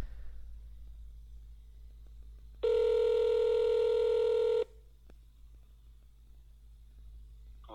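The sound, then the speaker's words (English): A single steady electronic telephone tone for an incoming call, loud and unbroken for about two seconds over a low background hum, then silence. “We got our next caller, Amir.”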